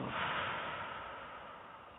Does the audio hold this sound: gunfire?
no